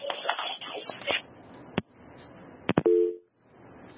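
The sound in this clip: A phone tone after a dropped call, with muffled talk and line noise at first, then a few sharp clicks and a single short, steady beep.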